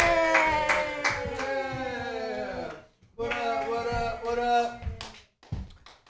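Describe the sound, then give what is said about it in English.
Audience applause greets a comedian at a comedy show: many hands clap with cheering voices. The clapping drops out briefly partway through, then surges again before trailing off. “Put your hands together, everybody, for Dakota Price.”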